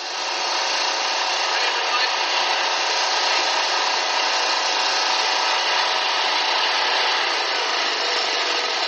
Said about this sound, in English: now what he was doing is running a regular generator in the background so you could get an idea with his running as well